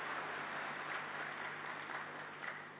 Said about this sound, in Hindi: परम श्रद्धे, परम आदरणीय ब्रजमोहन भाई जी का हम सब करतल ध्वनि के साथ स्वागत करते हैं, स्वागत करते हैं।